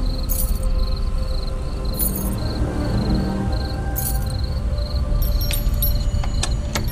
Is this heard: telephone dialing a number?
no